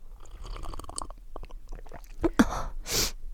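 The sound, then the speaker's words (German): Someone bites into and chews cake in a café, giving soft, uneven crunchy clicks and mouth sounds, mostly faint, with a louder breathy burst near the end. “nimmt einen Bissen von ihrem Kuchen”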